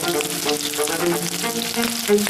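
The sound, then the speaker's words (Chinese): Five-spice rolls deep-fry in hot oil with a steady, even sizzle and bubbling that holds constant throughout without pauses. “好了，五香卷，我这里一炸就可以出了”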